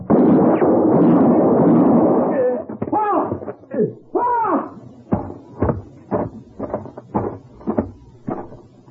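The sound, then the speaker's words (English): A gunshot in a radio drama lands as a loud, rolling blast lasting about two seconds, followed by raised voices crying out and a series of short, sharp knocks. “I had to shoot him.”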